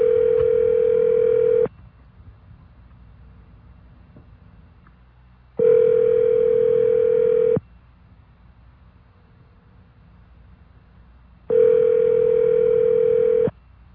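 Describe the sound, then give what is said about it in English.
A telephone dial tone hums in three steady, equal bursts of roughly two seconds each. Several seconds of faint low hiss separate the bursts. “See if we can get one of our magical dial tones. There we go.”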